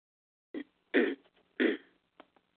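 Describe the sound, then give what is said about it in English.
Someone clears a tickle from their throat in a few harsh, rasping bursts. The two middle bursts are the loudest, and a couple of faint catches trail off after them in quiet surroundings. “Excuse me again, I'm sorry, I got a tickle in my throat.”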